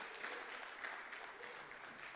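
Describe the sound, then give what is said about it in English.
Faint, steady applause from a church audience, a dense even patter of many hands clapping without pause and with no talk over it. “So give yourselves a round of applause. Give yourselves a round of applause.”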